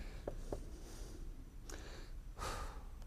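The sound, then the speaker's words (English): A man catching his breath while preaching excitedly: a few faint, sharp breaths and sniffs, the last one longer and more forceful, with no talking. “Hang on just a second while I catch some breath.”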